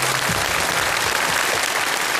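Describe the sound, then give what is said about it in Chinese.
Loud audience applause for performers on a children's poetry show, a thick, unbroken roar of many hands clapping at a constant level throughout. “来，掌声送给他们。”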